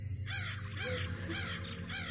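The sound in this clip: Crows caw in the sky, a run of several harsh, raspy calls in quick succession, fairly faint over a low steady hum.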